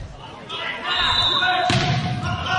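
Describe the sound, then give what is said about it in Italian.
A volleyball serve scores an ace on set point, making a single sharp ball impact midway through, with talk and a noisy wash of sound that continues afterward. “Molto bene, bellissima battuta ed è punto ace”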